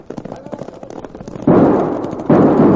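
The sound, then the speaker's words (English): Gunfire from Winchester army rifles during a western shootout: a run of faint, rapid cracks gives way to two loud, dense bursts of firing, each sustained and slowly tapering. “Now get them Winchesters working! Them are army rifles!”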